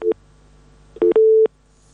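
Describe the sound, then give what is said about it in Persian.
A telephone busy tone after a dropped call sounds as mid-pitched electronic beeps: one short beep, a pause, then two quick beeps and a longer steady tone, alone and fairly clear. “خب تماس اونا قطع شده، میریم سراغ تماس دیگی.”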